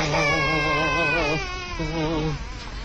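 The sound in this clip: A baby cries loudly in a sustained, wavering wail with a strained, tremulous pitch. The cry dips briefly, then resumes, with no talking audible.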